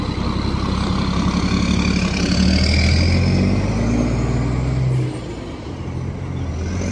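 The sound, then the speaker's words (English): Heavy engine drone of a bus pulling away in Darién, one of a line of buses carrying migrants out from the Darién Gap. The loud, steady rumble has engine tones that climb as it moves off, then the level dips slightly near the end. “So that's bus number 9. Just slow getting out. There's number 10.”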